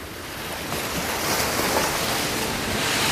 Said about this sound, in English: As we're sailing down through Terra Nova Bay and Inexpressible Island is about to come into sight